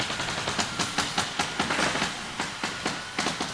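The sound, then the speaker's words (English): Staple guns fire as workers fasten a wood floor to a steel chassis in a Fleetwood factory in Edgerton, Ohio. Many sharp pops come in a quick, uneven rhythm over a steady industrial din. “Inside the plant, it's percussive. The work is like a dance, accompanied by the bounce of the staple guns. Workers are attaching the wood floor to the steel chassis.”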